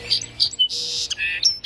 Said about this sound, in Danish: Det er lyden af en sangspurv, som er blevet set.